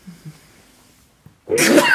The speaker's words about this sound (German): Und das muss ich niesen. Vorsicht.